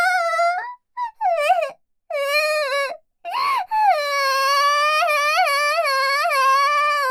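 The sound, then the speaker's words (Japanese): Fake crying from a voice performing exaggerated, whiny sobs: several drawn-out wavering wails broken by short pauses, ending in one long quavering moan. “てめえ、何あざとい嘘泣きしてやがる。”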